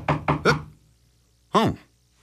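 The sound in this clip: Three quick knocks on a door announce a visitor late in the day, crisp and evenly spaced, followed after a pause by a brief voice.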